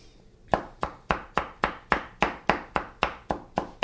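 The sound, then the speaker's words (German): A knife chops a thumb-sized piece of ginger small on a board. The chops are many sharp, crisp taps in a steady, even rhythm, moderately loud and with no voices. “Dann kommt der äh, Ingwer. Der gibt die Hitze sozusagen auch in das Essen. Einfach klein hacken.”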